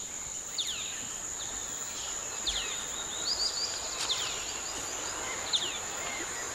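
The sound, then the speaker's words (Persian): Rainforest ambience with insects in Costa Rica: a steady high insect drone runs throughout, with a few short chirping calls scattered over it. “اینجا در عمق جنگل‌های کاستاریکا مادر فداکار دیگری هست که برای شروع زندگی فرزندان خود رنج ها می برد.”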